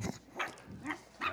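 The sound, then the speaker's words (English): Cute dogs barking in a video: a few short, high yips and barks in separate bursts, with quiet gaps between them and no talking. “I found a video, cute dogs barking.”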